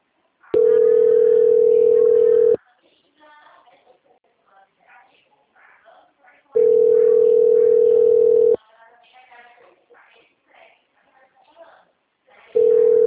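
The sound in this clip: A steady, single-pitched telephone line tone sounds during a call transfer, in long even bursts of about two seconds with quiet gaps of faint speech between, the last burst cut off.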